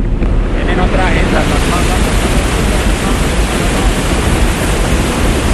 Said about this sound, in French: Ce bruit est celui de l'eau du barrage de la ville d'Ituango, dans la région d'Antioquia.